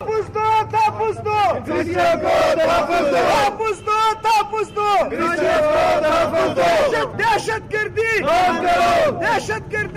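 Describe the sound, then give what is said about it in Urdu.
Protesters outside a press club in Quetta chanting slogans for the protection of the Christian community, loud rhythmic group chants repeated in short bursts over a crowd. “مظاہرہ شرکا نے اس موقع پر اپنے مطالبات کے حق میں نعرے بازی کی۔”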